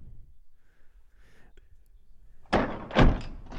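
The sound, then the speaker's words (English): A soundboard lock effect: faint soft rustles, then two heavy, sharp clunks about half a second apart, the second one deeper and louder. “Got the lock sound, baby. Oh, why'd you lock it in? Would you just lock in the soundboard?”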